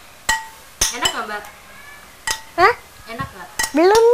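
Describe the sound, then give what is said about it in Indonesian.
A spoon stirs in a pot, giving a few sharp metallic clinks spread irregularly across the stretch, with brief voices in between. “lagi diaduk.”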